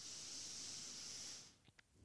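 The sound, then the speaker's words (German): A long, deep breath drawn in during a guided relaxation exercise: a steady, soft hiss lasting about a second and a half, then a few faint, brief sounds. “tief einatmen, so. Macht mal mit, einen tiefen Atemzug nehmen.”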